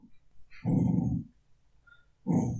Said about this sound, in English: don't growl at me, don't you bark at me either, stop it.